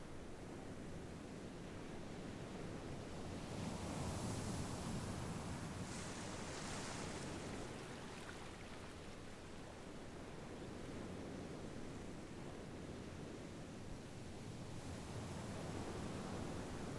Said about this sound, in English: By turning attention to the sound of the waves coming and going.